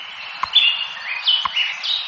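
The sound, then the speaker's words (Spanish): Small birds chirp at dawn in Madrid, with bright, high, quick chirps and short trills repeating every half second or so over a faint steady background hiss. “antes de hablar del presidente del gobierno español, Pedro Sánchez, nos piden paso los pajaritos de Radio Hora, porque a esta hora, a las 7:09 minutos, hora exacta, amanece oficialmente en Madrid.”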